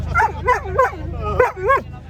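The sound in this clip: A year-old Labrador at a show gives several quick, high-pitched yelping barks in an uneven rhythm, each with a whiny, wavering tone, over a low steady hum.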